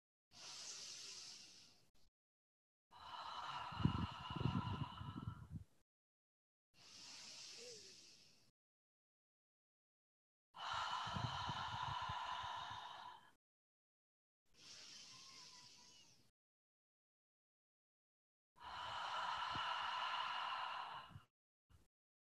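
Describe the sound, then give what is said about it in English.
Three slow, deep breaths, each a soft airy inhale through the nose followed by a longer, fuller exhale through the mouth, with quiet pauses between them. “I invite you to breathe below your navel three times through your nose and then exhaling through your mouth.”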